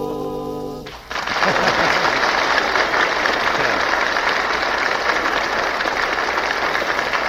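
Audience applause for a talent-show act: a sung piece ends, then dense, steady clapping breaks out and continues loud and even for about six seconds.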